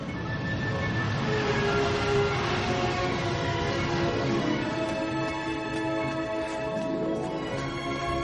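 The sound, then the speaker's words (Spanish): A futuristic train flying past overhead gives a loud, sustained rushing rumble with a steady tonal whine layered through it, holding level from start to end. “Un tren futurista pasa volando sobre ella.”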